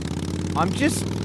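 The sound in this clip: A voice imitates a loud motorbike engine, as heard from a car waiting at traffic lights: a steady, buzzing low drone runs throughout, with a brief revving surge in the middle.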